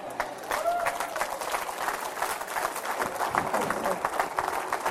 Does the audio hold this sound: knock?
no